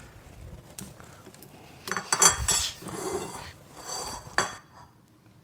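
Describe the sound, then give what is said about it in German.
Plates and cutlery clatter as a meat dish topped with parsley is plated, with a few louder knocks and clinks in the middle over a soft background rumble; no one speaks. “Wenn du mir 2 Teller geben würdest, könnte ich anrichten.”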